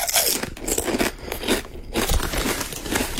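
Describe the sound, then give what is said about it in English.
Crunchy potato chips being chewed: loud, dense crackling and crunching bites continue without a break, with no talk. “Chewing crunchy chips, eating crunchy chips. Yeah, it is. It's potato chips.”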